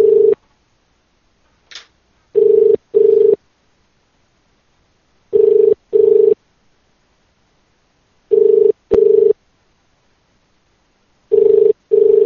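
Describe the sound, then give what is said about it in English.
Telephone ringback tone heard while a call is placed back. Four pairs of steady double-pulse rings repeat at even intervals, with a clipped tone at the start and quiet gaps between pairs. “Try to call back.”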